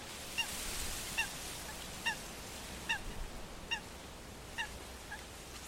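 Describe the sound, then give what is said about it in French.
A coot calls on a lake, a series of short, sharp, honking notes repeated at fairly even intervals. The calls are faint over a steady background hiss. “C'est un foulque qui chante. Ça, on les voit là, ils sont là. Hein. Le foulque, euh, c'est un oiseau assez commun qu'on connaît sur les plans d'eau.”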